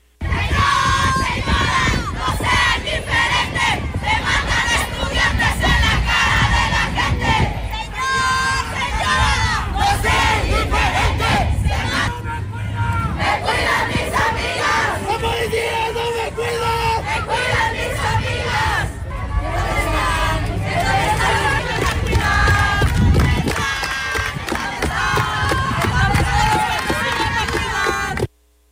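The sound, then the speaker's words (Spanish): Student protesters chanting slogans on a march to the Zócalo demanding justice for murdered female students: a large crowd shouting rhythmic chants in unison, loud and continuous throughout with surges of massed voices. “Ahí escuchamos parte de estos reclamos, sí, de estas consignas que fueron pues durante toda la marcha, esos 10 kilómetros que se recorrieron desde la UAM”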